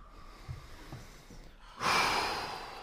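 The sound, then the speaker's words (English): Breathing after an arm exercise: a few soft, faint breaths give way to a long, loud, airy exhale that slowly trails off. “Straighten the arms. 3, straight arms. 2, come down. That was fantastic. Now you just breathe. Come down.”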